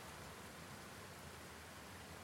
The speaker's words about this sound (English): That's the sound of a waterfall nearby that I know I can go photograph.